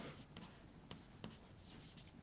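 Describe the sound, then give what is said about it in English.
Faint scratchy strokes of writing equations by hand during a lecture, a few short scraping bursts over a quiet hiss, with no voices. “Yeah. And again, I'll write these two equations here.”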